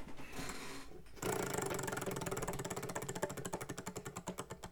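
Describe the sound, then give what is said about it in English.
A prize wheel spinning sound effect, quiet overall. A brief noisy rush gives way to a dense run of rattling ticks that slowly spread out as the spin loses speed. “All right, here's the spinning of the wheel.”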